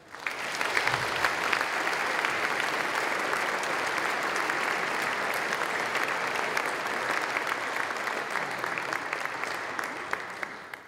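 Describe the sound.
An audience in Naples applauds to welcome a visiting professor as speaker. The clapping is dense and steady, holding at an even loudness for about eleven seconds before tapering at the very end.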